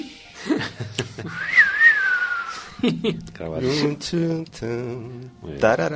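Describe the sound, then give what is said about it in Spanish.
A person whistles a short melody: a high, wavering tone of about a second and a half that sits fairly loud over background noise. A voice then talks. “yo silbo muy mal, ¿no? Pero solamente con escuchar ese silbido, ya todo el mundo...”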